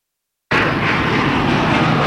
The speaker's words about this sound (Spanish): Puente aéreo. Aterrizamos en Barcelona, en el aeropuerto del Prat